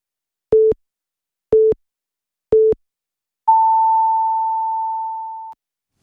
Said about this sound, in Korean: 정성을 다하는 국민의 방송 KBS가 3시를 알려드립니다.